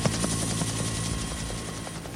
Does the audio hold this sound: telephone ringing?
no

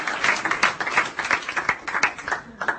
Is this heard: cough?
no

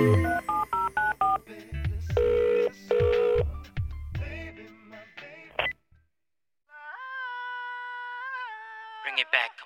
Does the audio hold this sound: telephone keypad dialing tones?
yes

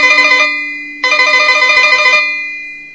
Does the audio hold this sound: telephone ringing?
yes

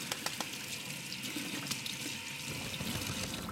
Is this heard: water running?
yes

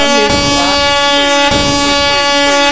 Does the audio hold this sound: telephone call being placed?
no

